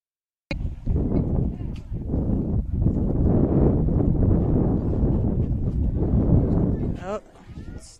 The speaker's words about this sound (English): I could hear the wind.